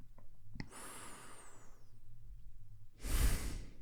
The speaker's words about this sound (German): Als erstes, wie oft kannst du 2 oder 3 tiefe Atemzüge nehmen? Und noch ein.